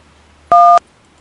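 One telephone keypad tone as a caller presses 1 to join a radio call-in host queue: a single loud, steady two-pitch beep lasting about a quarter second, alone against quiet line noise.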